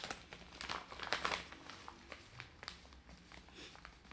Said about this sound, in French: Ça te dérange pas si je te pique un peu de tabac pour que je m'en mette une clope.